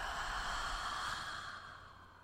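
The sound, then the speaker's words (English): A slow, deep breath in and out during a guided meditation, a faint, soft, airy rush of breath that flows steadily and eases off toward the end. “Deep breath in and out.”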